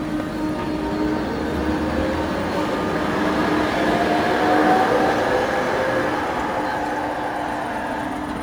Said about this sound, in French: sur l'avenue où le tramway vient de passer.